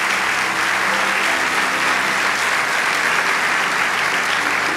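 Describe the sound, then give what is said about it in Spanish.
An audience applauds in a dense, steady wash of clapping that holds at an even loudness throughout. “Vamos, dale ese aplauso.”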